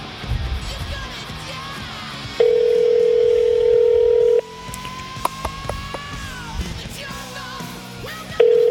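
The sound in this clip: Ringback tone of an outgoing phone call: a steady, low electronic tone holds for about two seconds, falls silent during a long pause, then starts again at the end over faint background noise.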